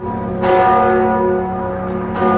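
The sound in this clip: Church bells toll in Gdańsk during a funeral farewell, a loud, sustained ringing with rich overlapping harmonics, renewed by fresh strikes as the tones hang in the air.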